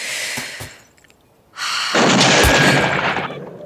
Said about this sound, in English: Lean in, breathe out slowly, and squeeze the trigger.